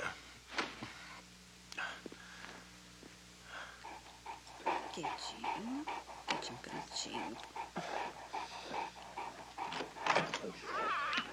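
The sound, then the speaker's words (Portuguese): A neglected, dirty dog with wounds that need stitches whimpers and pants while being tended, with soft whines and breathy huffs running under people talking. “Seu cão?”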